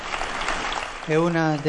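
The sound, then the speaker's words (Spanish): Audience applause honoring the Pope's chauffeur: a short burst of dense clapping lasting about a second before a voice comes in over it. “Un aplauso a Renzo y a su fidelidad.”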